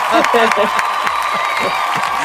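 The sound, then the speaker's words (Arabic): An applause sound effect played by a radio host: crowd clapping and cheering, with scattered sharp clap bursts among a busy mix of crowd voices. “لحظة أشغل الإفكت صفقة.”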